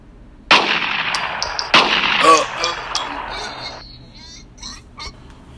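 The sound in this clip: Two loud gunshots from a gun, a little over a second apart, each with a long ringing tail that fades into quieter scattered sounds.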